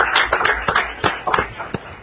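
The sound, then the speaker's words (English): Applause at a city council meeting welcoming a new local business, heard as irregular, separate claps from a small group rather than a dense roar, fairly loud and without talk. “So let's give them a round of applause.”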